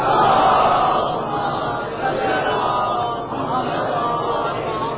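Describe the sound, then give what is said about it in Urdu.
A crowd at a Shia religious gathering loudly chanting salawat: massed voices in a sustained, swelling roar that rises and falls in waves. “آواز سے بلند نعرہ صلوات”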